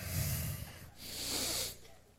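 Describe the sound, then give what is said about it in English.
A church audience takes a deep breath together during a service: a broad, airy rush of collective inhaling that swells and holds steadily at moderate loudness, with no talk. “Sit up. Take a deep breath.”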